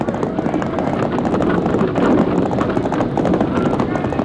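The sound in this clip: Horse-drawn wagons roll along in a line, a dense, continuous clatter of hooves and rumbling wheels that stays steady and loud throughout.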